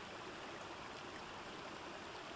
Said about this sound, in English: stood in awed silence, watching the never-ending cascade of water.